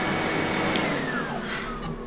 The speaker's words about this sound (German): mach doch mal den Staubsauger aus. Man versteht ja überhaupt nichts.